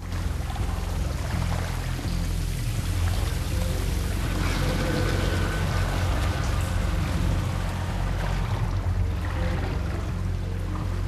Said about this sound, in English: The water foams and bubbles where they walk.